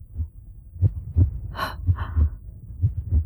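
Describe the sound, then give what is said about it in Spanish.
A heartbeat thumps in steady low, muffled beats, with a sharp breath intake partway through, after a climb up stairs into a corridor. “Los latidos de mi corazón.”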